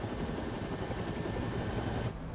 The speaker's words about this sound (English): scans for the taxi in a helicopter